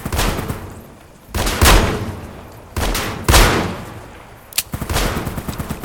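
Assault rifle fire in a video game: a few loud bursts of rapid shots, each fading into a rumbling tail, ending in a quick rattling volley.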